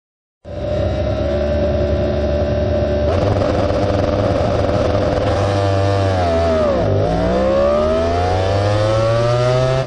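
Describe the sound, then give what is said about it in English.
Fabio Quartararo's MotoGP motorcycle engine at a race start, recorded onboard: a loud, steady high-revving roar held at fixed revs, turning rougher after about three seconds, then dipping sharply in pitch and climbing again as the bike accelerates away. “you can literally hear the difference between Maverick Vinales and Fabio Quartararo. Well, here's what Fabio Quartararo sounds like. Here's his start from onboard.”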